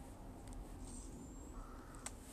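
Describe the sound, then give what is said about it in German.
Ravens caw faintly a few times over a low, steady background hum. “Warum sind hier überall diese blöden Raben? Die nerven voll.”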